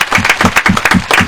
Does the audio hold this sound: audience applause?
yes